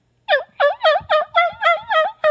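Eight harsh, loud turkey yelps from an angry hen call come in an even, rapid series with short gaps between them, and there is no talking.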